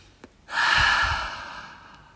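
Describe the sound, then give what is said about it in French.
One long, deep breath taken during a calming breathing exercise, in through the nose and out through the mouth: an airy rush that swells quickly and then slowly fades, heard alone without talk. “je t'invite à venir inspirer par les narines, venir gonfler ton ventre, tes poumons, ta cage thoracique et à expirer par la bouche.”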